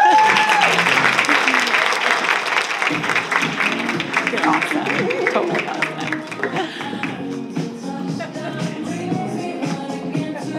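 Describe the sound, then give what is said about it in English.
An audience gives loud applause as a speaker is welcomed onto the stage at a wellness talk on hormones. The dense clapping tapers off in the second half, while voices talk over it. “I can't wait anymore, so please give a very warm welcome to the floor stage to not my new friend, Dr. Chris Wallace.”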